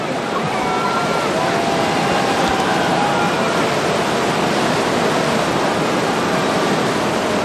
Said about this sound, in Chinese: 我们看到今天的一线潮是一道优美的弧线，这是因为河床有高低起伏，各股潮水快慢不同形成了弧线。